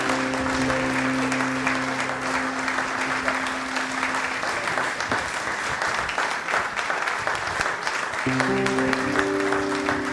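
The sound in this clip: Applause from a church audience welcoming a speaker with a standing ovation: steady, dense clapping that carries on unbroken for the whole stretch.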